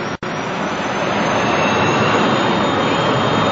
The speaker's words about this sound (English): Zurich Airport, and perhaps as you can hear from the noise in the background, the Learjet of the Swiss Air Rescue Guard is now barreling down the runway here